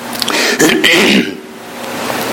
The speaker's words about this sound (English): Excuse me if I cough some.